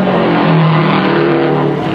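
A race car's engine roars as car number 99 passes on the track at the Indianapolis Motor Speedway during the 500-mile race. The loud, droning tone holds steady without a break.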